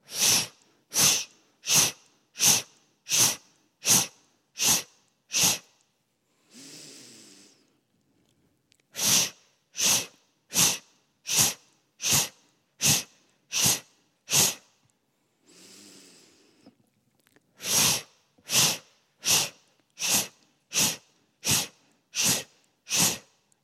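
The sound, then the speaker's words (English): Forceful, rhythmic nasal exhales during a breathing exercise come in quick sets of eight. A long, deep inhale through the nose separates each set, and the pattern repeats steadily at a brisk, even pace with no talking. “So just go ahead and continue this breath, inhaling deep through the nose, and then exhale 8 times.”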